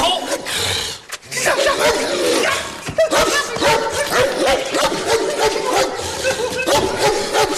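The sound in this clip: A dog barks repeatedly in short, sharp barks and yips, mixed with people talking over it.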